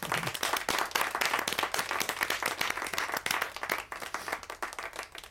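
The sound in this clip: Audience applause welcoming the company chairman at a business awards ceremony: many quick claps blend into a lively, sustained patter that stays fairly steady with slight dips in intensity.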